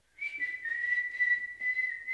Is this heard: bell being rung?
no